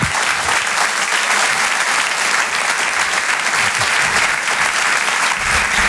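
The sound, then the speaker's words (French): Audience applause greets a comedian as he walks on stage, a loud, thick wash of clapping hands that stays continuous and even throughout. “merci pour votre accueil, merci pour vos applaudissements, ça me touche vraiment beaucoup”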